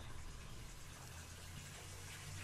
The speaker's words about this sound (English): Is that the water? But I don't know what that is. Is that the water coming back on?